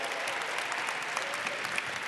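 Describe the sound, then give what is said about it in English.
Audience applause for a woman who earns a little over $12,000 a month in business. A dense, steady clapping wash holds at an even level throughout, with no voices. “All right. Give her a round of applause.”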